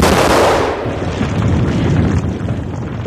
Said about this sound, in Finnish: Ensin räjäytettiin 410 000 tonnia kiveä vuoren seinämästä taivaisiin